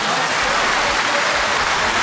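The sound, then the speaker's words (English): Applause from a group of people, a dense, steady patter of clapping that fills the whole short stretch at an even, fairly loud level. “A round of applause.”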